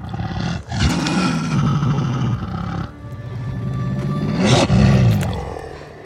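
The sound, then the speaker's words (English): Dog vocalizations layered to act as a wolf pack: deep, sustained growling howls with a rich harmonic tone, swelling loudly twice, with no talk. “to do the Return of Nymeria scene when she returns to visit Arya with her wolf pack. And every voice in that is my dog, Angel.”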